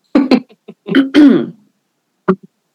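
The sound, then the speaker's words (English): A person clears their throat in a few rough, throaty bursts, then adds one short final rasp after a brief pause. “sorry, my throat. There goes my throat chakra.”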